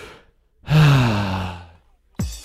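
A single deep breath released as a long, voiced sigh that lasts just over a second and slowly fades, followed by a short, sharp breath at the end.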